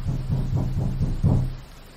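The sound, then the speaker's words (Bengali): Loud knocking on a door: a rapid, even series of heavy, low thuds over a steady background hum, stopping abruptly. “নটা নাগাদ আমাদের দরজায় বেশ জোরে ধাক্কা পড়ল”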